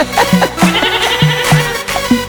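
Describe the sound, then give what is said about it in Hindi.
Goats bleat over and over, with many short, nasal cries in quick succession that stand out loudly against a busy background. “आजकल की बकरियां बे बे करती।”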